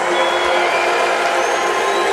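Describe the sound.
Concert crowd at a live band show cheering and making noise: a dense, loud, unbroken roar of many voices that holds steady throughout without any clear pauses.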